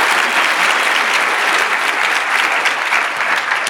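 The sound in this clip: Loud applause from an audience for a speaker at a live talk, a thick, continuous wash of many hands clapping that holds steady from start to finish.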